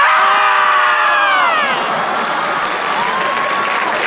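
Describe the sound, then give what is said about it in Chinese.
A performer screams loudly, imitating a marmot's cry with a drawn-out shout that falls in pitch. Applause and cheering from an audience follow and continue to the end. “头一回听说土拨鼠这么喊。”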